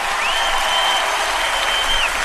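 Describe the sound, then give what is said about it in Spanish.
Studio applause on a live Spanish-language program welcoming a guest: dense, steady clapping from a small audience, moderately loud, with a long high whistle running through the middle. “Señoras y señores, en el estudio, Javier Muñoz Delgado, aquí está con los aplausos,”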